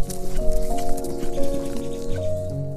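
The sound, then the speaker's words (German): Horses galloping at speed, a dense, continuous clatter of hoofbeats with no clear gaps, accompanied by steady sustained tones throughout. “als sie jetzt in einem Mordstempo auf euch zugaloppieren.”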